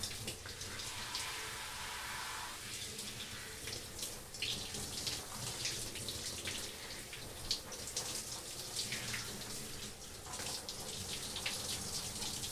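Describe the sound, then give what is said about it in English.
Running water flows steadily while hair is being wetted, a continuous soft hiss and splash with small irregular surges, fairly faint and with no talking. “I just wet my hair, and this is now going to get a little interesting.”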